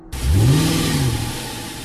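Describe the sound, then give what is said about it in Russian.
A bus engine roars as the bus pulls away, kicking in abruptly. Its loud, steady growl climbs briefly in pitch, then settles into a sustained drone. “Двигатель взревел. Несколько человек остались на улице, когда двери автобуса захлопнулись. Их спины скрылись за густыми ветвями. Автобус с людьми тронулся с места.”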